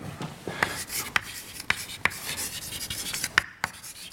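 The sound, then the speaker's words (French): An equation being written out by hand: a run of scratchy strokes punctuated by several sharp taps in an uneven rhythm. “je vais écrire la zérocline pour W”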